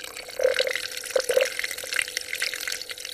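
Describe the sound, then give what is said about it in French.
Treated water runs in the large sinks of a parchment restoration laboratory. Hollow gurgling bubbles and light drips sit over a steady watery wash, with a few louder bubbling bursts. “Nous voici maintenant dans une autre salle avec eh bien, des sortes de grands lavabos. L'eau là est traitée.”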